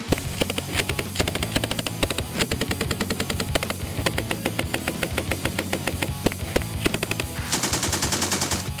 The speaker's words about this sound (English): Here's a clip from YouTube of the game developers spending a day shooting guns to collect audio along with the army.